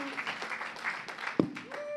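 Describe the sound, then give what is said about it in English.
Audience applause for speakers at a church service: a brief, soft patter of clapping mixed with voices, with one sharper clap standing out near the middle. “So for Bethany coming first and Gershon coming second, give them a big, big, big hand. Come on. Go get them.”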